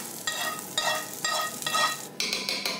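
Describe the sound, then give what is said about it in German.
Roasted onions with parsley are stirred into meat frying in a pan. Several rhythmic scraping strokes of a spoon sound over a continuous bright sizzle, with no talking. “Ja, die haben wir jetzt wunderbar jetzt geröstet. Das geben wir jetzt hier zum Fleisch dazu.”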